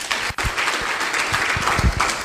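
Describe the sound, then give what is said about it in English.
Audience applause at a candidates' forum, given as a round of applause for the armed forces: a brisk, moderately loud spread of many hands clapping, with a brief dip just before the clapping settles into a steady wash. “I would ask at this time that the audience give a round of applause for our armed forces.”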